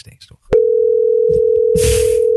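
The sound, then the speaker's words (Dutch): A telephone tone sounds while a call is being placed: one steady, loud, unbroken tone at a single pitch. Faint voice sounds come just before it, and bursts of noise pass over it partway through. “Ja, we gaan gewoon bellen.”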